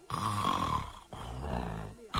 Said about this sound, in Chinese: 这谁打呼噜呢？仔细一听，这呼噜声啊是打那个神龛底下那帘子里边传出来的。